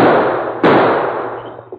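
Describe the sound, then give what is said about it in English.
Gunshot sound effect in a western radio drama, with two sharp, loud bangs in quick succession. Each one is followed by a bright, ringing decay, and a small click comes near the end. “That's what comes of firing so fast. But why'd you fire?”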